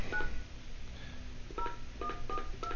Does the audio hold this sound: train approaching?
no